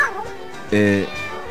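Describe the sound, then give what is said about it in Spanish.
A cat meows in a loud, drawn-out, tonal cry, with softer voice-like sounds around it as people talk. “Sí, vi que habías venido, pero también vino un gato.”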